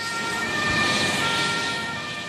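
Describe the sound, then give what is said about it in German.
An ambulance siren sounds as the vehicle drives off from the square in front of a football stadium during a rescue exercise. A steady, loud, sustained wailing tone rides over road noise, with no talk. “Auf dem Platz vor der Allianz Arena fährt der nächste Rettungswagen ab.”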